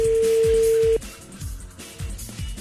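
A steady, mid-pitched phone tone as a call is dialed, holding for about a second before cutting off abruptly, then low rhythmic thumps continue.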